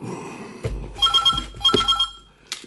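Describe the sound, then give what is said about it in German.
A telephone bell rings loud and harsh in two rattling bursts in a detective audio drama, with a few dull knocks around the rings. “Das Telefon klingelte, laut und unfreundlich.”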